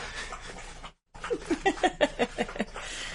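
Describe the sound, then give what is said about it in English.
A dog drinking water: a short, quick series of wet laps in a steady rhythm, each one soft and distinct, following a brief gap of silence. “Well, that's the dog drinking.”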